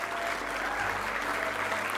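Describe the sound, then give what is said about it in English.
A church audience applauds, many hands clapping in a dense, continuous patter that holds steady in loudness throughout. “Let's give him a big clap,”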